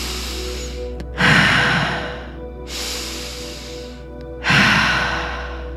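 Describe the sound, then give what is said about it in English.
Deep breathing during a stress-relief breathwork exercise: three long, loud, airy breaths, each swelling and fading, separated by short quieter pauses. “Keep the breath going and keep bringing that stress into your body so you can feel it.”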